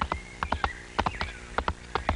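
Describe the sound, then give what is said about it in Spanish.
A horse's hooves clip-clopping in a loping rhythm of crisp, paired knocks, fairly faint, with no talking over them. “¡Véngase, mi caballo! ¡Véngase! ¡Venga, mi caballito!”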